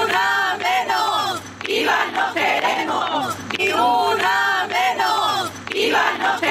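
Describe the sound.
Women's voices chant in unison at a night-time street protest in an old town, a loud, rhythmic crowd cry repeating in steady phrases with brief gaps, sustained throughout.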